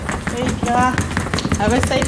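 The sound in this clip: Small high heels click quickly across the floor along with the rolling rumble of wheeled suitcases, while voices talk over them.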